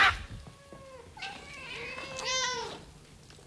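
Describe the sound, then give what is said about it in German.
Cats meowing as four cats creep up and gather in a circle, a few drawn-out, mid-pitched meows with bending pitch, some overlapping, heard alone with no voices. “Vier Katzen kamen angeschlichen und setzten sich im Kreis um die Alte.”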